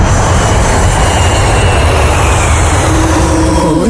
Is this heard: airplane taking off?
yes